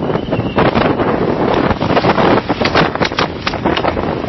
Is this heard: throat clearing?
no